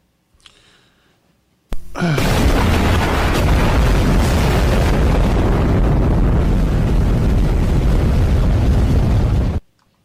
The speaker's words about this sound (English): that's what an H-bomb sounds like.